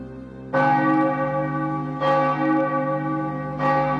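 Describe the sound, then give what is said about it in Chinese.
A village church bell strikes at night with three deep, resonant strokes, evenly spaced. Each stroke rings on in a long humming decay before the next, with no voices. “跨出庄园大门时，村里教堂的钟正好响了九下。”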